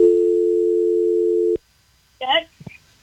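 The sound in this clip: A steady telephone dial tone hums after a caller's line drops, then ends abruptly with a click. A man's voice follows a moment later.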